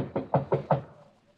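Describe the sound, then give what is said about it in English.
Four sharp, evenly spaced knocks sound on a bedroom door, each with a short woody resonance, then fade into quiet. “Better knock harder.”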